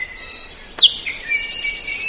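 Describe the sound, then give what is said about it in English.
An Akiapolaau, a bird with a chisel-like lower bill and a long curved upper bill, gives a single short, high call with a quick downward slur, then faint high trailing notes over a soft background hiss. “And then there's the Akia palau, with one of the most remarkable beaks of any bird.”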